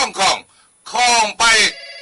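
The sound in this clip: A telephone ringing in three bright, buzzing bursts of ringer tone, the last two coming close together.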